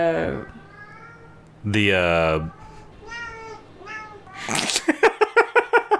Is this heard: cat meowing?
yes